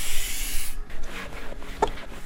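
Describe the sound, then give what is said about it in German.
Polishing of a rental camper van's window glass in a workshop makes a continuous hissing, rasping rub that is brightest at first and then softer and more uneven, with a brief sharp knock near the end. “Nebenan in der Werkstatt poliert gerade einer der Mitarbeiter die Fensterscheibe eines Mietkarawans.”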